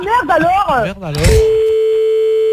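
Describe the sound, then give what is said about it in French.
A steady telephone tone sounds as a call is placed back to a listener. It holds one unchanging pitch after a brief stretch of melodic voice. “Attends, on rappelle, comme Virginie a insisté, on va rappeler.”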